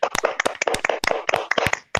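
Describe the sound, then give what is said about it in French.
Brisk applause of many quick hand claps in an uneven, rapid rhythm, sharp and steady for a couple of seconds, with no talking. “On peut les applaudir.”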